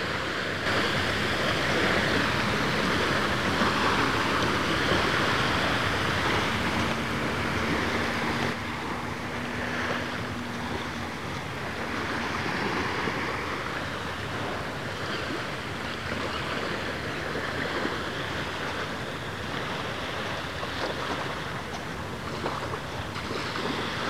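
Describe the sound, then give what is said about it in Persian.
Sea waves washing onto a soft sandy beach, with a steady, dense rushing wash and wind noise that hold fairly even from start to end. No one speaks. “الان نزدیک شدم موج‌های آب”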